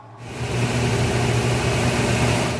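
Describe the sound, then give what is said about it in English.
A 1957 Blackstone B250 top-loader washing machine in charcoal spins at 1100 RPM, a loud, steady motor drone with a low hum that starts almost at once and holds evenly to the end. “That's The 1957 Blackstone B250 in charcoal with the distinctive and very excellent control towers”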